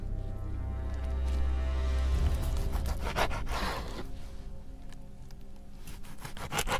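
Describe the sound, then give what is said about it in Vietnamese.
Rasping, sawing scrapes of a sharp blade cutting a body into pieces, chopping the arms into sections, as a horror drama effect. A low rumble opens, then repeated rough strokes go on steadily at moderate volume. “chặt, chặt tay thành ba khúc. Hai tay là sáu khúc. Sáu khúc. Cắt, cắt, cắt đi.”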